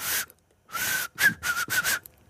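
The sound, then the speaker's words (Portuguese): Someone whistles with four fingers in the mouth, producing a few short, shrill, breathy bursts with a silent gap after the first one. The later bursts come in quick succession. “Fui treinando e consigo assobiar com os quatro dedos.”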